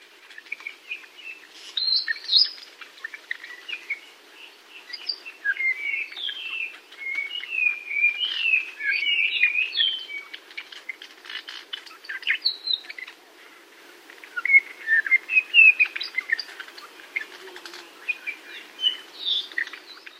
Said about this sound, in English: Apapani's whisper song seems assembled from its own repertoire, not imitating other species.